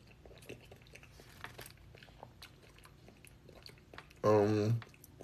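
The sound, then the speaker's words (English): A pet eating papaya, seeds and all: faint, soft chewing clicks and smacks repeat throughout, then a short, loud voiced sound breaks in near the end. “He's eating papaya, yes.”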